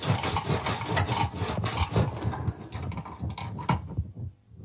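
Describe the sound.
A sharp kitchen knife pushed hard through a tough fennel bulb makes a long run of rhythmic scraping, rasping strokes, fairly faint and steady before trailing off at the end.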